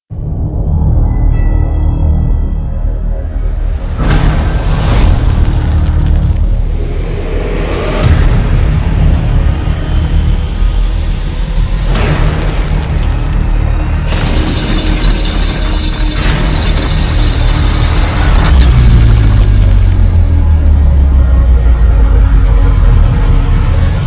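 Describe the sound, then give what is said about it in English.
Rumbling, engine-like drones and swelling effects from the trailer for the horror film Hellraiser: Judgment, loud and continuous without dialogue, closing on a deep descending sweep. “Let's play the trailer for Hellraiser Judgment.”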